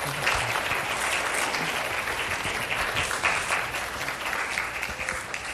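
Applause from an audience thanking the preacher at the close of a church service, a dense, even patter of many hands clapping without a break from start to finish.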